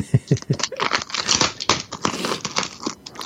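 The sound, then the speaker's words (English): Packing tape and wrapping being pulled off a parcel box, busy crinkling and tearing with sharp rips and rustles in an irregular, loud stream. “So we're just getting the wrapping up now, so getting all the tape off.”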